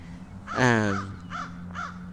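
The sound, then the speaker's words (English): Crows caw outdoors: one long, harsh, loud caw, then two shorter, fainter caws spaced evenly apart, over a steady low hum. “So I don't know if you can hear that. There's some birds squawking. I am outside right now.”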